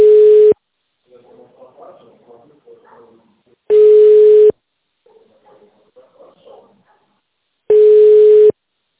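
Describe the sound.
A telephone line tone plays after a call was cut off. It gives three long, steady, even-pitched beeps at regular intervals. Faint, muffled voice fragments fill the quiet gaps between the beeps.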